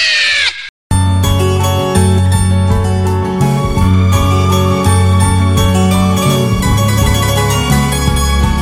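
A phone ringtone plays loud, sustained bell-like tones in a continuous melodic pattern after a brief burst and a short gap of silence at the start.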